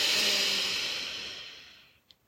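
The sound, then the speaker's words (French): A deep breath drawn in at the end of a guided visualisation, a soft airy hiss that starts full and gradually fades over about two seconds, followed by a tiny click. “Terminons cette visualisation guidée en prenant une dernière profonde inspiration. Allez, on inspire.”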